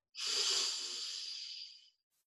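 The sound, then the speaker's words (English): One long, deep breath taken during a guided meditation. A soft, airy hiss swells quickly and then slowly fades over nearly two seconds, with no talk around it. “With each and every exhale, letting go of any physical tension, physical energies that you no longer need. Deep breath in”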